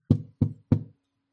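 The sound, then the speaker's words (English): Knocking on a wooden object for good luck: three evenly spaced, hollow knocks, each with a short resonant decay, then silence. “Find the largest wooden object you can right now and knock on it for good luck.”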